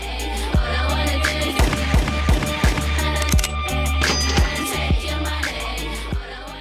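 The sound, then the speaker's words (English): Sampled gunshots in a song: many sharp, loud bangs strike in a regular rhythm over a steady, low-pitched musical backing. “Finally, of course, we have those samples of the gunshots.”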